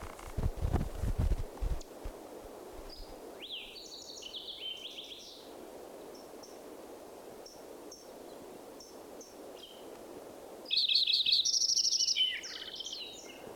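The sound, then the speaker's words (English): Fox sparrow song mixed with other birdsong: high, warbled phrases in the first half and a louder, bright phrase later on, over steady low background noise with scattered faint chirps. “Fox Sparrow mixed in there.”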